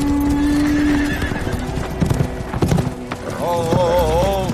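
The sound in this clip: A horse with a rider moving along, hooves clip-clopping against a dense, busy background. A wavering neigh rises clearly near the end.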